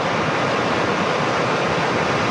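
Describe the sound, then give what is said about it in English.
Roaring rush of a flooding mountain creek at Canmore, running high under a flood watch: a dense, unbroken wall of churning water noise, loud and steady from start to finish, with no voices. “Our little creek in Cougar Creek is raging again.”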